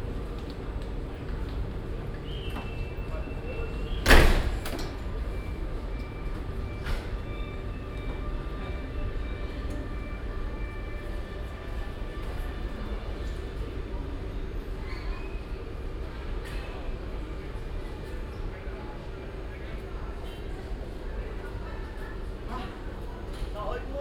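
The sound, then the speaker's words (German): A train departing from platform 12 at Hannover main station: a single sharp thump of closing doors early on, then a steady, even rumble of the train with faint high tones running through it. “Vorsicht an den Türen. Ihr Zug fährt jetzt ab.”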